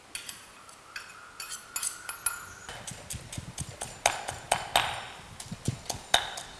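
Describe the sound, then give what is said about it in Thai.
Pestle pounding Thai curry paste of galangal, lemongrass, garlic and shallots in a mortar: many sharp knocks in an uneven but steady rhythm, each with a bright ringing edge, growing a little louder toward the end, with no voices. “เห็นนะครับเราโขกเอง”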